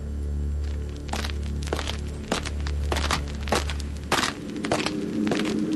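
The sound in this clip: Footsteps walk into a cemetery as a radio drama effect, a steady run of many crunching, crackling steps over a low hum that cuts out partway through.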